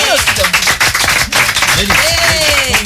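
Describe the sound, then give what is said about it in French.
Applause from a studio audience during a recorded French talk program, sharp bursts of clapping running throughout with voices speaking over it. “applaudissements s'il vous plaît”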